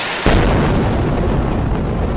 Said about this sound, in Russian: Кроме того, ракета с воздуха также была выпущена по дому одного из лидеров движения «Хамас» Исмаила Ханьи.